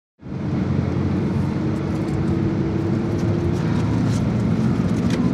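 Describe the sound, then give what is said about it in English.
Steady road rumble from a car on the drive back into Kamishlo, starting abruptly and holding a continuous low drone with airy hiss above it, without any voices. “We start the drive back into Kamishlo.”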